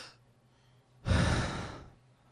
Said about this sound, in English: Do me a favor, everyone, take a breath.